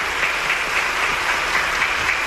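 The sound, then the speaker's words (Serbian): Long, sustained applause from standing members of parliament welcoming the proclamation of the constitution of the Socialist Federal Republic of Yugoslavia. The clapping is a dense, steady roar with no pauses, and no voices come through. “Svi poslanici su ponovo ustali i dugotrajnim aplauzom odobravaju”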